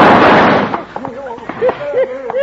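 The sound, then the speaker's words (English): Gunfire in a radio western drama shootout: a loud, broad blast opens the moment, then fades as men's voices take over. “Can't get away with this. There's five of us. Gun them down, men.”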